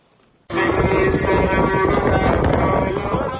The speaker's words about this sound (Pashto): دوړې او سخت باد چلیږي